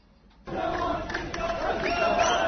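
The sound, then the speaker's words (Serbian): Qatar football fans sing and chant in Doha before the Qatar vs Ecuador World Cup match, a dense crowd roar that begins abruptly after a brief lull and stays loud and sustained to the end. “Ovo su navijači Katara. Njihova pesma i igra. Nacionalna obeležja.”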